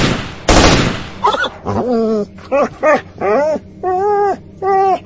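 A short burst of automatic gunfire is aimed at a pack of wild dogs in grass near old graves. Many high, wavering dog yelps and squeals follow in quick, uneven bursts.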